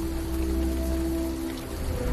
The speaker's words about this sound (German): Regen, Wind und Donnerschlag.